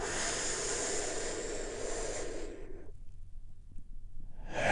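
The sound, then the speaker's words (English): A deep inhaled breath during a guided breathing exercise: a long, steady, airy hiss lasting a couple of seconds, then near silence before another breathy sound starts at the end. “taking a big, deep, healing breath. All together, here we go”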